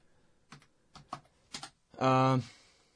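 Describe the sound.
Typing on a computer keyboard: a few separate, crisp key clicks spaced out over two seconds, then a brief voiced sound from a person.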